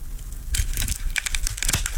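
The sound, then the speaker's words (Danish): Scissors cutting, heard as crisp snips with crinkling, tearing rustles in a few quick bursts. “Og jeg har saksen parat.”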